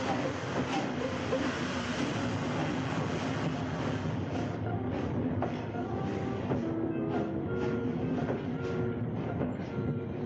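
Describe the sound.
An express train bound for Vienna rolls along with a dense, unbroken roar and faint rhythmic clatter, steady in loudness from start to finish.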